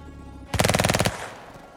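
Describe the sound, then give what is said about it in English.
Automatic weapon fire echoes down a tunnel: one rapid burst of shots lasts about half a second, then trails off in a fading reverberant tail. “And far, far away down the tunnel, Mr. Fraser, you begin to hear an automatic weapon fire.”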